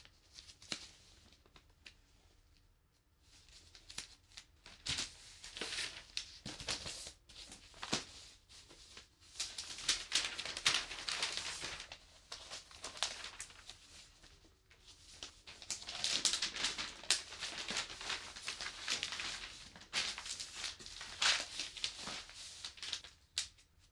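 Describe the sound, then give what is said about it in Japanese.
Newspaper sheets being spread over a floor produce faint rustling and crinkling paper in many uneven bursts, with quieter pauses between handfuls. “まずは新聞紙を床に敷き詰めてと”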